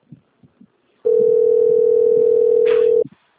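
Telephone dial tone heard while placing a call: a loud, steady, single-pitch hum lasting about two seconds. A few soft clicks come before it and another click follows.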